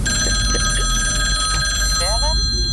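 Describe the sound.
Telephone ringing on an outgoing call to a listener, heard as steady high-pitched ring tones that hold through the whole clip, with a brief voice near the end.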